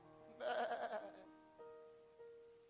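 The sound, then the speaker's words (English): A sheep bleats loudly once with a wavering, harmonic-rich cry, followed by a few softer, fainter sounds that trail off. “It was rather drowned out by the bleating of sheep in the background.”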